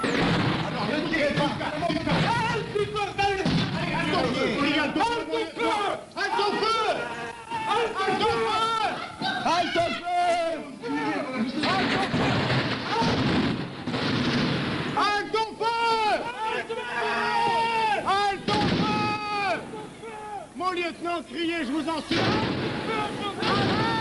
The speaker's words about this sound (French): C'est complètement dingue, on entend halte au feu, 80 morts, 200 blessés, la fusillade de la rue d'Isly enregistrée par René Duval pour Europe 1.